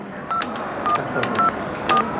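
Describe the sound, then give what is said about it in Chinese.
Telephone keypad tones as a hotel front-desk phone dials a guest's room: a few short, evenly pitched beeps over a steady hiss of background noise. “我朋友住在这儿，我给他打个电话。”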